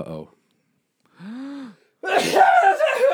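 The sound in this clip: A sudden sneeze cuts in among conversation, a short forceful burst with voiced sounds before it and talking following.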